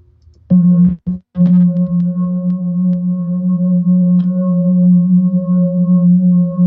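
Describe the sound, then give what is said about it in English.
Singing bowls ringing: a deep, loud, sustained tone with bright overtones. It is struck a few times in quick succession at the start, then hums and shimmers steadily to the end. “These are bowls, by the way, singing bowls.”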